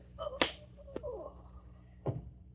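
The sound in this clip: A man is struck and falls against a desk: three sharp smacking impacts, the first the loudest, a quick crack following, then a heavier thump after a pause.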